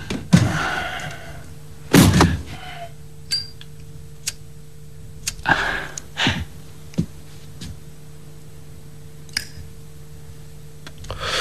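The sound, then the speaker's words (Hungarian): A door is closed, heard as a few dull thuds and knocks spread across the stretch, with a faint steady hum running underneath. “becsukná az ajtót, hadd aludjanak a szüleim.”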